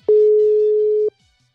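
Ringback tone of an outgoing WhatsApp call: one steady, mid-pitched tone lasting about a second, then silence.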